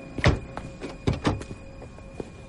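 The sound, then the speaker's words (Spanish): An Oldsmobile's car door opening as it parks by a motel: a few faint dull thunks and clicks of the latch and door, spaced irregularly against a quiet background. “El Oldsmobile aparca junto al motel. Gail baja y abre a Mike.”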